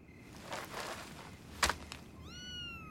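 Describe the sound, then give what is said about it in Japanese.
A small kitten gives a single high-pitched meow near the end that rises and then holds steady. It follows some faint rustling and one sharp knock, with no talking. “確かに今猫の鳴き声が聞こえたけど”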